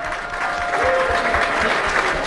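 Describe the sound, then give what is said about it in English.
Audience applause at a live contestant competition, following a contestant's answer about bench pressing: loud, sustained clapping from many hands, dense and steady for the whole stretch with no talk over it. “All right, round of applause.”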